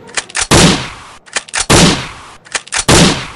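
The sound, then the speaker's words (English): Gunshots fired at a computer: three loud, sharp blasts, evenly spaced, each with a short decaying tail and each preceded by a quick cluster of fainter snapping clicks. No voices. “What the? Why did you shoot my computer?”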